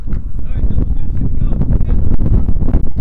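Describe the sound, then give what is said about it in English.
Wind rushes and buffets the microphone at an outdoor baseball game, a loud and steady low roar with gusty swells throughout. Faint voices can be heard underneath. “And the wind picks up a little bit.”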